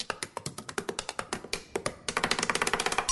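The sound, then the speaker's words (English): A pen taps on a desk in an irregular, drum-solo rhythm of sharp clicks, then quickens near the end into a fast, even roll of many taps. “Right up there with the woman who taps her pen like she's doing a drum solo at a sold-out arena.”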